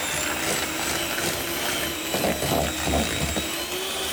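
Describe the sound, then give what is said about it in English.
Whisking butter, soft brown sugar and smooth peanut butter together gives a steady, fairly loud motorised whirr that runs without a break for the whole clip, with slight grinding variations and no talk over it. “I've got butter in here, soft brown sugar, and then the peanut butter. So we'll give this a whisk.”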